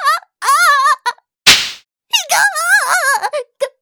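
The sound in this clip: A hard slap on the buttocks: a single sharp, loud smack in the middle, set between wavering vocal sounds from a voice heard before and after it.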